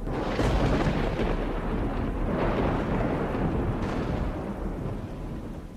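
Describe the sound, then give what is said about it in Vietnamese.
Deep, rolling thunder rumbling across the sky, a loud continuous roar with several swelling bursts over a dense low-frequency rumble, with no voices. “vừa lúc trên bầu trời tiếng sấm động rung chuyển.”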